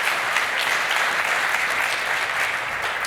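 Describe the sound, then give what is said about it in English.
A conference audience gives a round of applause after a session of lightning talks. The clapping is even, dense and sustained, staying at a constant level throughout. “so a huge round of applause for that.”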